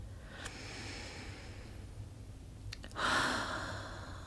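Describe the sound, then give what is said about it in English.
Deep, slow breathing, soft and airy throughout, with one fuller, louder breath swelling near the end. There is no talk. “Nice, deep cleansing breaths, just like that.”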